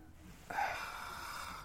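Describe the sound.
One heavy breath: a sudden, sharp, gasping intake opens into a faint, breathy hiss that holds for about a second.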